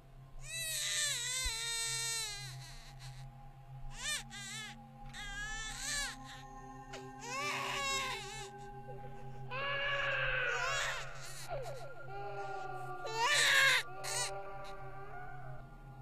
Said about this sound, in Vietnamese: Ngoại trừ khí lạnh và mùi tanh nồng của máu, đâu đó còn có tiếng trẻ con khóc văng vẳng vang lên, làm cho người đàn bà rùng mình.